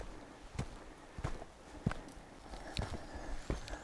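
Footsteps of a hiker on a mountain trail loop near Dahlonega, Georgia: several soft, crunching treads at a steady walking pace, spaced about half a second to a second apart, with no talk.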